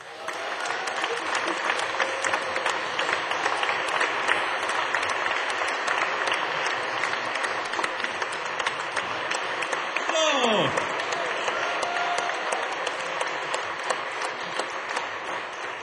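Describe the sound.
Audience applause at Celtic Connections 2012 welcomes a performer onto the stage. Dense, steady clapping holds at an even, full level for the whole stretch.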